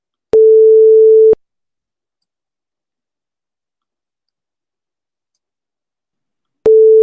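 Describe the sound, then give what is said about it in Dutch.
Telephone ringback tone heard while calling a listener: two steady, mid-pitched electronic beeps, each about a second long, separated by a long silence, loud and with no voices. “En we gaan nu Abe bellen.”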